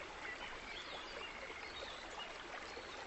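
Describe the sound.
A clear stream flows beneath Mount Fuji, its water making a soft, continuous rush and trickle that stays faint and even throughout.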